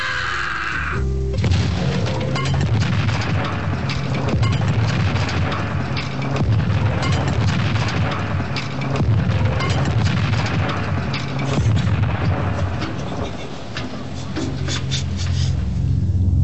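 Booming land mine explosion set off by a footstep: a loud, dense roar of rumbling blasts and crashing noise that holds steady for the whole stretch with no quiet gaps.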